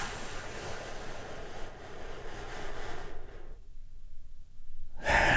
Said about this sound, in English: take a deep healing breath with me. Right now, here we go.